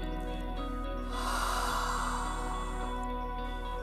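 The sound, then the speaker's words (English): A slow, soft exhale during a guided breathing exercise: a single faint breathy rush lasting about a second and a half over a steady low hum. “Exhale with me.”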